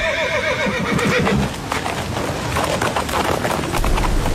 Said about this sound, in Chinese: 马蹄轻踏，缰绳拉起